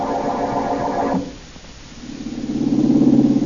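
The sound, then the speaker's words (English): A car engine rumbles low and steadily builds in loudness while a woman drives out into the country, following a higher-pitched sound that cuts off and a brief quieter stretch. “As we return to our story, Blackie is tied up and the woman is driving him out into the country.”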